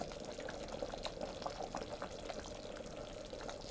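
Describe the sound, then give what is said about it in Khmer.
Coconut cream pours into a pot of boiling taro dessert, a steady dense bubbling and liquid rush that holds even throughout, with no voices. “ចាំដល់ពេលនេះនាងខ្ញុំនឹងដាក់ខ្ទិះដើមចូលបន្តិច”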